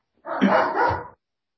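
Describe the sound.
A dog gives one loud, drawn-out bark of under a second, rough and slightly two-part in shape, heard alone with silence before and after.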